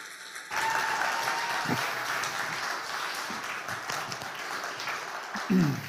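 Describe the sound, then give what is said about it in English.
Applause from a church audience welcoming a pastor to the stage during a Sunday service: sustained, dense clapping that begins abruptly and holds at a steady level throughout, swelling briefly near the end. “So let's put our hands together and give Pastor Steve a warm Hope Ottawa.”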